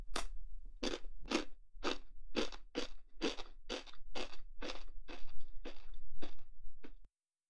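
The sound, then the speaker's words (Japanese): Crunching and chewing of salty food: many crisp, evenly spaced bites, roughly two per second, fairly quiet and heard alone before stopping abruptly. “しょっぱいもの食べると喉乾くね。”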